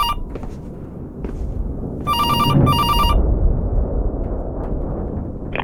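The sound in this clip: A telephone rings just before a call goes to voicemail: two bright bursts of electronic trilling that stand out over steady background noise.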